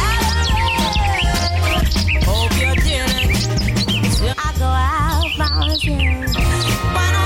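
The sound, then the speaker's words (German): Bird chirping layered over a remixed classic pop song as a spring effect, with high twittering calls scattered throughout a loud, dense music track. “Und noch ein bisschen mit Vögelgeräusch passend zum Frühling drüber gelegt.”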